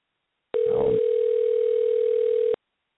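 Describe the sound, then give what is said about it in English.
Telephone dial tone before a call is placed: a single steady mid-pitched hum lasting about two seconds, starting and stopping abruptly, with a brief faint rustle near its start. “And dial it now.”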